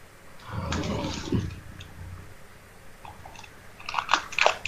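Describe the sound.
Dogs eating, crunching and chewing their food: a loud, dense crunching surge near the start, a quieter stretch, then several sharp crunches toward the end.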